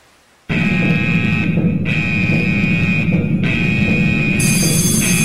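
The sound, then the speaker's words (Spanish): A harsh electronic alarm buzzer blares as a spoiler-warning sound effect. It starts abruptly after a moment of quiet, then drones loud and steady with a few brief dips. “Bueno, suena ahora la alarma spoiler y entramos en detalle.”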